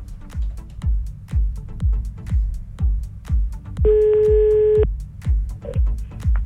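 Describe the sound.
A single steady telephone tone, about one second long, sounds while a caller who hung up is being dialed back. It is clear and level against a loud, regular thumping beat that runs throughout.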